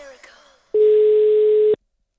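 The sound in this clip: A telephone tone after a number is dialed: one steady, mid-pitched electronic beep lasting about a second, loud and even, starting and stopping cleanly after faint earlier sound.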